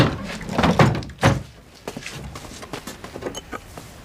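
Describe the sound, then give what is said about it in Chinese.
A door is pushed shut with a single dull, solid thunk, surrounded by softer shuffling and knocking sounds. “你把门关上吧”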